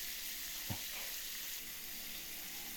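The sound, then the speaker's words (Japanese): Shower water runs steadily during a back wash, a continuous bright hissing spray with no voices. “シャワーを固定しましたよ。それでは背中を流しましょうね。”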